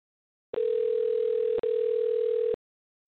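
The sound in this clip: Telephone ringback tone on an unanswered call: a steady, loud, mid-pitched electronic tone held for about two seconds, with one brief break in the middle.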